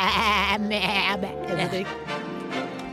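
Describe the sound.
A human voice imitates a goat bleating, making a few wavering, nasal, vibrato-laden bleats in quick succession that sound much like speech.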